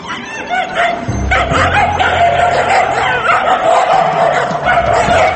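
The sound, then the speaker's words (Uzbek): Stray dogs barking in Tashkent during a roundup: repeated barks, yips and whimpers, loud and fairly continuous over a noisy background. “Itotarlar, mustaqillik bayrami oldidan Toshkentni daydi itlardan tozalamoqdalar.”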